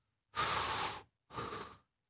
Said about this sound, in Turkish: Şimdi bak göğüs nefesi aldığım zaman şu elim şişecek.